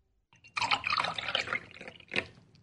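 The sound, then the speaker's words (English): Rum pours into a glass as a brief splashing, gurgling stream that tapers off, followed by one sharper drip or splash a moment later, with no voices. “My father poured him a glass of rum”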